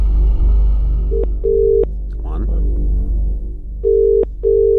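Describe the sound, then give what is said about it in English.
Phone line tones after a number is dialed: two pairs of steady, mid-pitched tone bursts, each pair a short beep and then a longer one, separated by a gap filled with low rumble. “Here we go. I am dialing now.”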